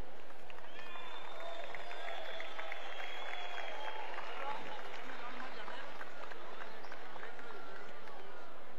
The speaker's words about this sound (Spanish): mi hermano y amigo Manuel, un aplauso inmenso para él.